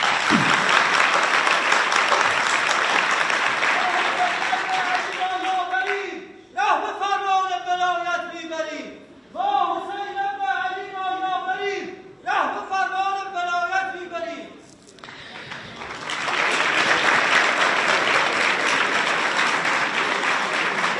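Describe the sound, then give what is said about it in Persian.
Audience applause at a public talk: dense, loud clapping and cheering that breaks off while a voice speaks through the middle stretch, then swells back to full strength. “شما در واقع برای خودتون دست بزنید، برای خودتون دست بزنید، نه برای این حرف.”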